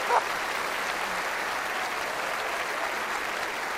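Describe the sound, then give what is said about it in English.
An audience claps at a televised gathering, a steady, dense wash of applause that holds at an even level throughout without breaks. “If you're watching on TV, that clapping is for you.”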